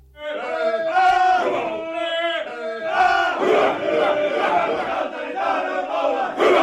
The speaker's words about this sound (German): So klingt ein ganz besonderer Männerchor aus Finnland. Den gibt es seit bald 40 Jahren und dieses Jahr hat er gleich mehrere Auftritte in Oulu.